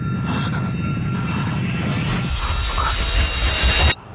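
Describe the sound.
An underground train pulls into a station on the tracks with a loud, continuous, broad roar and low rumble, thin high whines running through it. The roar cuts off abruptly just before the end.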